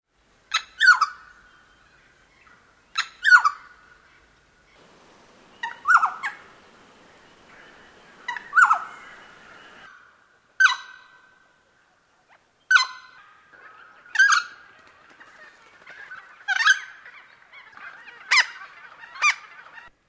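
Noisy friarbird giving a selection of short calls: a series of harsh, nasal, clipped calls spaced a few seconds apart, each loud and abrupt, with quiet gaps between them and no voices.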